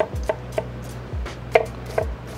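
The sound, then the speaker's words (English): A knife dices onions on a chopping board for a stock base, making a handful of crisp, irregularly spaced taps over a faint low hum. “Right, so we dice up our onions, and this is all of the base vegetable that's gonna go into the stock.”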